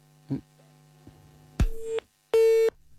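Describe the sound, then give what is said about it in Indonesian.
Telephone busy signal on a cut-off phone line: a few soft clicks, then two short, steady electronic beeps at the same mid pitch, separated by a brief silence. “nampaknya jalur telepon ya untuk pagi hari ini terputus”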